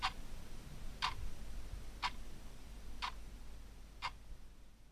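A weight-driven wall clock ticks steadily, five faint, sharp ticks spaced about one second apart over a quiet background.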